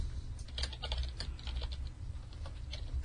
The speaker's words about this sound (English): hold on, I can't type and talk at the same time.